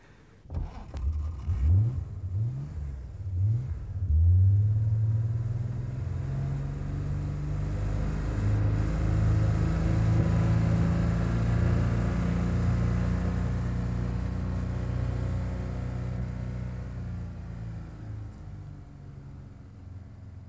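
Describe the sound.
A car drives off, its engine revving in a few quick surges that climb in pitch. It then settles into a loud, steady drone that slowly fades toward the end.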